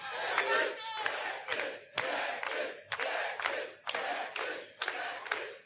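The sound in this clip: An audience chants at a wrestling show: loud, rhythmic crowd voices rise and break in many regular, roughly one-second bursts that repeat steadily.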